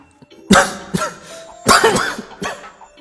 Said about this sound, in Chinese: 说到这里他有些激动，按着胸膛咳了两声，脸色再次转白三分。